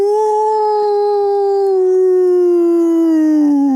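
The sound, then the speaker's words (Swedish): A person's voice imitating a wolf howl, with one long, loud, steady tone rich in harmonics that holds its pitch and sinks slightly toward the end, heard alone. “Ja, men då tar jag, alltså varg är ju inte så svårt.”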